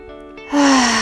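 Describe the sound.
A deep breath, in through the nose and out through the mouth: a sudden loud, airy rush of breath starting halfway through, with a faint voiced tone that slides slightly downward.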